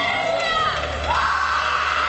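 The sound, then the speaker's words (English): A church audience shouts and cheers during a service. A continuous loud mass of whoops and yells fills the whole clip, with sustained tonal voices riding on top. “Don't let me stop you from shouting, baby.”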